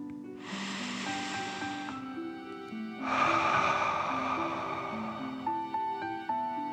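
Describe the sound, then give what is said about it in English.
Two long, deep breaths, in through the nose and out through the mouth, whoosh softly during a calming breathing exercise for children. Gentle sustained musical tones play underneath. “Breathing in through your nose and breathe fire out of your mouth. Again, deep breath in and out.”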